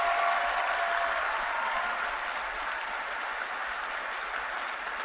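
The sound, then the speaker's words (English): Church audience clapping a clap offering to the Lord during a service, a steady, dense wash of applause that holds at an even loudness for the full five seconds with no voices standing out. “Let's give the Lord Jesus Christ a wonderful clap offering.”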